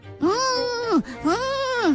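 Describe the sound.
A human voice imitates a donkey braying, for a story in which a donkey walks late into a classroom. It gives two long, drawn-out nasal calls, each rising and then falling in pitch.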